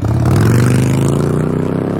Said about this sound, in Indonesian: Buset, tuh orang ngebut bener bawa motor. Gak mikir nyawa apa ya? Pakai ngelanggar lampu merah lagi.